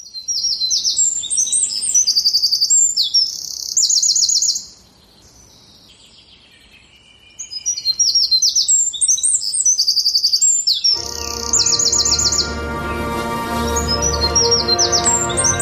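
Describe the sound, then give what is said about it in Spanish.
Birds chirping and singing in a forest: many bright, high chirps and trills in busy bursts, with a brief quieter lull partway through before the song resumes. “Es escuchar ese sonido, ¿no? El de los pájaros”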